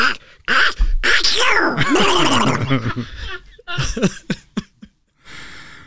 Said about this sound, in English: I have a really good sneeze that always gets the grandkids.